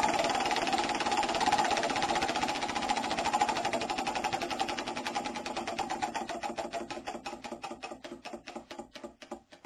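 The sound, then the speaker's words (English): A prize wheel spinning for a giveaway drawing makes a fast, steady stream of ticking clicks that gradually slows, the clicks spreading farther apart toward the end, with no talking. “We'll spin the magic wheel and find out who wins.”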